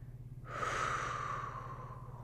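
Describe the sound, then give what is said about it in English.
A long, slow exhale of breath during a guided breathing exercise begins after a brief quiet moment. It is a soft, airy rush that holds steady for nearly two seconds and is faint overall. “Begin by exhaling all of your air here.”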